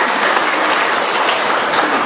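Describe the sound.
A church gathering gives a round of applause to welcome a visitor from New Orleans in America. The clapping is dense and even, a continuous loud wash of hands with no breaks or voices over it.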